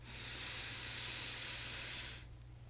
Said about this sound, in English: Let's do it again. Inhale with your nose.